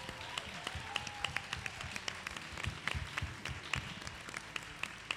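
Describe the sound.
Audience applause at a women-in-sport event, given as a farewell and thanks just before an awards presentation: dense, steady clapping from many hands that keeps an even level throughout.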